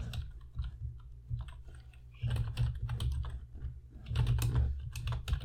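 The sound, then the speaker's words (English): Keys clatter on a computer keyboard as a search is typed in, in two dense bursts of rapid, uneven clicks over a low steady hum, with no voices. “Type in Bulls Drive for Five. Okay, I looked that one up.”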